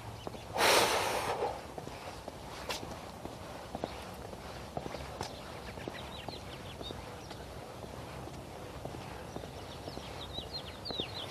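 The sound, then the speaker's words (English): A single nose blow outdoors in cold, raw weather makes a short, loud, hissing burst near the start. Steady walking footsteps follow and continue faintly to the end. “Oh, it's cold and raw enough out that my nose is running. I've already blown it twice. I may have to do it again.”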